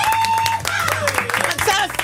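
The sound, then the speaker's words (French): Studio applause welcoming a caller on a French radio morning show, scattered clapping beneath lively, overlapping voices and whoops that stay loud throughout. “Applaudissements pour Maxence.”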